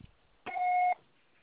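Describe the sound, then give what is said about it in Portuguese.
A voicemail beep: one steady electronic tone, about half a second long and fairly high-pitched, sounding alone and cutting off cleanly. “Grave seu recado. Você só será tarifado após o sinal.”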